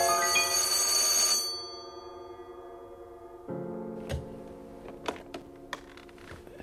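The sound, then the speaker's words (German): A telephone ringing shrilly: a bright, buzzing ring at the start that cuts off and fades out, followed by a lower hum and a few sharp clicks. “Dann schrillte das Telefon.”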